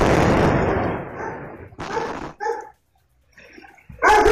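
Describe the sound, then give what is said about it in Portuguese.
A gas explosion in São Paulo's West Zone booms loudly and fades over a second or so, followed by a few sharp dog barks separated by quieter stretches. “Tem ali o som, um ruído normal da área. E aí a explosão por gás, depois cachorro latindo”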